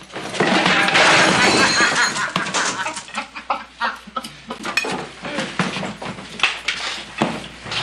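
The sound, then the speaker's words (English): A tray of dishes crashes to the floor in a western film scene, a loud, bright clattering smash followed by many scattered clinks and smaller knocks as the noise thins out. “And Liberty Valance bullies him and trips him up as he's trying to carry a tray until Donovan, John Wayne, steps in.”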